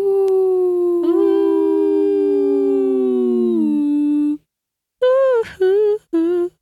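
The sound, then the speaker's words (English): A voice imitates wind howling through trees: one long, eerie, wavering howl that slowly sinks in pitch, then a brief silence and several shorter rising and falling howls. “And then the wind picks up, and the wind through the trees makes an eerie howling sound like this.”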